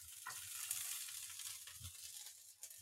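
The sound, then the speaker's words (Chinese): Onions added to a frying pan after garlic, giving a faint, steady sizzle of hot oil with a few soft stirring scrapes. “那我们蒜头下完后，我们现在下洋葱。”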